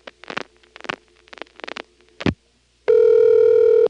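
Telephone exchange line tones from a Greenville NX1 switch: several short, buzzy bursts of irregular length, a brief pause, then a loud, steady, harmonically rich tone that holds to the end.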